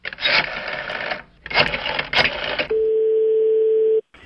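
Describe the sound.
A telephone ringing tone sounds while calling a bookshop: one steady, mid-pitched tone held for over a second, then cut off abruptly.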